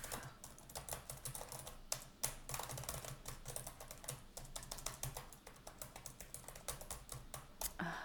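Rapid typing on a computer keyboard, a dense, continuous run of crisp key clicks with uneven rhythm, steady in loudness and heard alone without voices.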